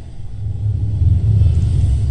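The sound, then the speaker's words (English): Street traffic ambience from a sound-effect preset: a steady, low rolling rumble of passing cars that swells slightly louder in the second half, heard alone without voices. “Now I go back to this traffic one that I set up. So that's all just running, it's all fine.”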